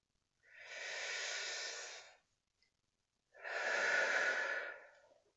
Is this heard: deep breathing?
yes

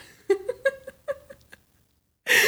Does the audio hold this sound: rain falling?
no

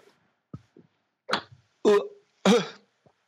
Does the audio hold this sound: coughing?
yes

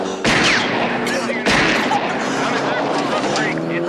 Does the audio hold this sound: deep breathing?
no

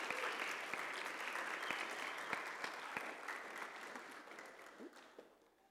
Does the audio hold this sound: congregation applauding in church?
yes

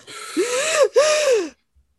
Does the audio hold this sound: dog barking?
no

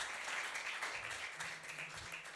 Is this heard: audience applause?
yes

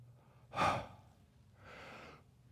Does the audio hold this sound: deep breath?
yes

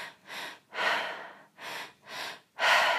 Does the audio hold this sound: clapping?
no

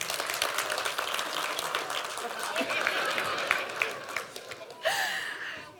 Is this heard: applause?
yes

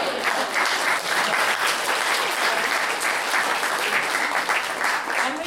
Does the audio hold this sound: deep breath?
no

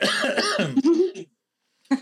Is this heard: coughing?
yes

